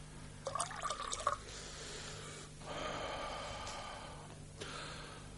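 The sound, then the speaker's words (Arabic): Wine being poured: a short burst of splashing and dripping, then a longer, steadier gurgling stream and a brief final trickle. All of it is faint, with no voices. “يا غلام، صب نبيذي.”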